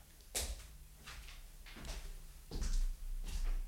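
A door opening as someone comes in, heard as a series of knocks, thuds and clatters over a low rumble, with no voices.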